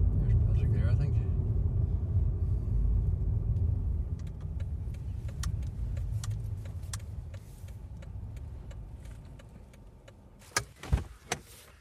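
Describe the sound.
A car driving to a graveyard, with a steady low engine and road rumble that slowly eases in level, and a couple of sharp clicks near the end.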